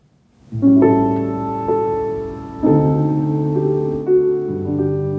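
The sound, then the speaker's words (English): A sampled software piano, played dry with its effect plug-in switched off, sounds a few sustained chords in the low and middle register. Each chord rings clearly and decays before the next, with no voices. “So if you turn this off, you can see this is the sound of the actual piano.”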